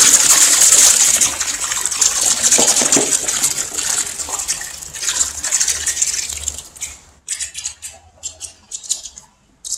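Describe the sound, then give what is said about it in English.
Molten metal, melted-down scrap that turns out not to be silver, is dumped into water. A loud, steady sizzling gush gives way to sporadic, sharp crackles and pops as it settles. “And he's got it all melted down, and he's going to dump it into water this time because he doesn't want it to be in a block.”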